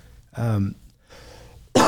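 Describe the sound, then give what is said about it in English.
A lingering post-COVID cough: a few harsh, breathy throat sounds, ending in a sharp, loud burst. “still have that COVID cough all this time”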